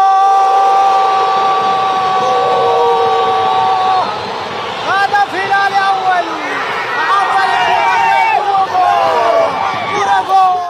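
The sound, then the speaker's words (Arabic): Football fans celebrate in Khartoum after a derby match at the stadium, steady tones giving way to many excited, overlapping shouts and calls. “أقيمت في استاد الخرطوم وجمعت الكثير من المشجعين، دعينا نستمع إلى جزء من احتفالات المواطنين بالعاصمة”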